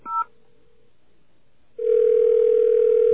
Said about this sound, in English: I just want an operator, so I'm going to hit 0. Calling.